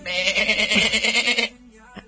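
A sheep bleats once in a long, wavering, nasal cry that lasts about one and a half seconds, loud and alone, with a pulsing tremble running through the note before it cuts off into near quiet.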